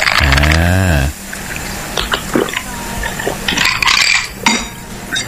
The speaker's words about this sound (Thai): อันนี้ S99 นะครับเติมด้วยโซดาครับเขย่า